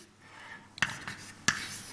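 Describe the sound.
Chalk or a pen writes during a physics lecture with faint scratchy strokes, broken by two sharper taps that stand out against quiet surroundings.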